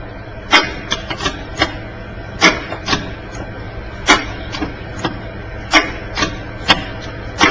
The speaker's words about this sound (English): So I've pressed A, and whatever letter that is, presumably an O, has come on. I'll press it again.